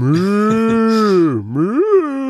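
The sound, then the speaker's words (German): A voice in a German-dubbed audio drama produces a deep, drawn-out cow-like moo, a rich harmonic tone that holds steady, dips low, then swells back up before trailing off. “klingt wie eine Kuh.”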